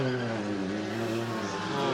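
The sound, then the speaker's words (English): A race car pulls away from a pit stop after refuelling, nearly stalling before the clutch catches, during a Michelin Pilot Challenge sports car race. The engine gives a loud, steady, continuous droning tone throughout. “Nearly stalled it, but picked it up. Dropped the clutch in time.”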